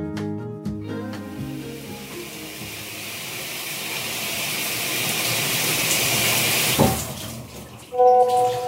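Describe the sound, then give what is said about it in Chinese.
Water runs from a tap to fill a bath, a steady rushing hiss that gradually builds in loudness over several seconds, with brief tonal notes at the start and end. “不跟你们说了啦，我去洗澡。”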